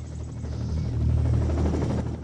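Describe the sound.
A helicopter descends into a jungle clearing, its rotor throbbing in a steady low drone that swells slightly in loudness partway through and holds to the end.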